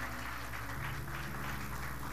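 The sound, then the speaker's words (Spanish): Congregation applause during a church service, faint and continuous, with a low sustained tone underneath. “Y le damos un aplauso al Señor por nuestras visitas,”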